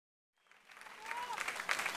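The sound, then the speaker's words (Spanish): Applause from an audience at a live music performance. The clapping starts faint after a short silence, then swells into steady, dense applause that grows louder toward the end. “Un gran aplauso para Eduardo Martín.”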